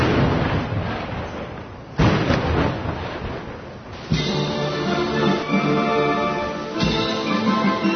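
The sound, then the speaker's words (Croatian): Ceremonial cannon fire from a salute at a state welcome, several deep, rumbling booms spaced a couple of seconds apart, each rolling on without clear silence between them. “za gosta iz Centralne Azije ispaljeno je 10 topovskih plutuna.”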